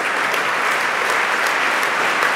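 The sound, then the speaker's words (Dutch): A concert audience applauds a choir as it returns to the stage to bow after an opening concert, a dense, steady and evenly loud wash of clapping that holds through the whole clip. “En ze komen nog eens terug op het podium om te groeten. Eén lang applaus krijgen ze hier.”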